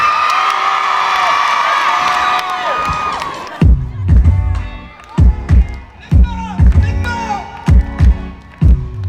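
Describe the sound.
A concert crowd cheers and whoops loudly for a singer, then the cheering gives way to a regular, pounding rhythmic beat of thumps.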